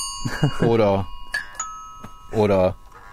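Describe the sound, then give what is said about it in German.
A doorbell from a rack of assorted door chimes used for audio-drama sound effects rings with steady, sustained tones under bursts of talk, with a brief bright chime near the middle. “Da gibt es ganz unterschiedliche Türklingeln, die ab und zu im Hörspiel gebraucht werden.”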